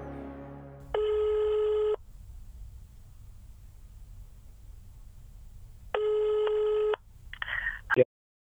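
Telephone ringing for an incoming caller: two buzzing electronic ring bursts, each about one second long and roughly five seconds apart, over a low steady hum, ending in a short rustle and a sharp click.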